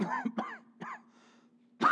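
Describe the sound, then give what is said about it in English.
A person imitates a cough and throat clearing with a few short, raspy hacks and grunts, then one louder, harsher cough at the end. “Oh, brother, you got a cold, huh? No. Oh, so you have a cough, man, are you okay?”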